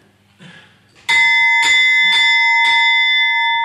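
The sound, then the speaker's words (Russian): A bell rung for the Arati ritual strikes four times in a steady rhythm. Each bright metallic clang rises over a loud, sustained ringing tone that carries on to the end. “Now, Arati time come. Сейчас наступает время Арати. Now you ring the bell. Сейчас кто-то позвонит в колокол.”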